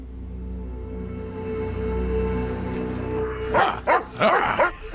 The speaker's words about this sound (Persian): هر چقدر دوست داری واق واق کن.